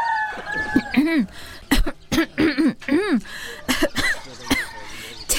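A woman coughing hard with a throat irritated by dust from a sugarcane factory: many harsh, uneven bursts of hacking with strained, voiced rasps between them.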